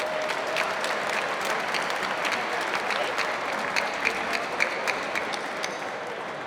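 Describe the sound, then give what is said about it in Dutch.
Audience applause for cloakroom staff during a meal at an open-house event, a steady wash of dense clapping with a few sharper individual claps standing out toward the end. “Geef ze een applaus, de garderobe.”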